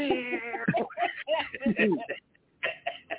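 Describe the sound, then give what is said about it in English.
A human voice imitates a cat's meow with a few wavering, drawn-out mewing calls amid ordinary talk. “It sounds like a cat. Meow,”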